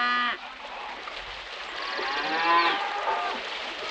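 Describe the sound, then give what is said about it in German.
Cattle mooing: a short low moo at the start, then several longer, overlapping lowing calls that swell and hold steady in loudness. “Rinder.”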